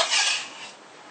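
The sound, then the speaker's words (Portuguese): A cutting board being rinsed and washed in the kitchen, a bright hissing splash of running water that swells at once, then thins and fades within about a second, with no voices. “Agora, mais do que nunca, eu vou lavar a tábua de novo, né?”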